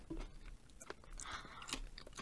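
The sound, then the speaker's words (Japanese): Quiet crisp crunching as someone bites and chews a tea-flavoured, potato-chip-style snack, many sharp little crackles in an irregular rhythm. “ちょっと一つ食べてみます。”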